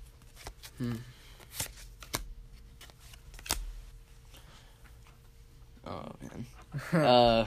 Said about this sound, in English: I'm just sorting out cards while we're talking.